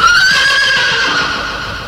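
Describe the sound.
A horse neighs in a single loud, drawn-out whinny with a high, wavering tone that slowly fades toward the end.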